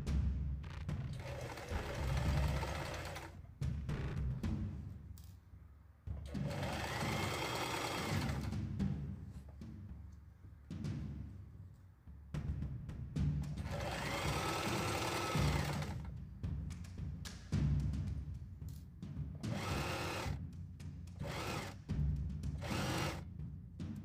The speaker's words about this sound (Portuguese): Vou colocar certinho ali e vou costurar aqui de fora a fora.